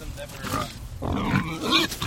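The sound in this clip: Heritage breed pigs grunting in a farm pen: a few rough, low grunts and snorts follow one another quickly.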